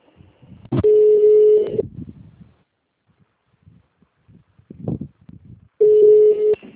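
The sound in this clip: Telephone tones play while a call is transferred: two long, steady mid-pitched beeps separated by a few seconds of faint rustling and handling noise.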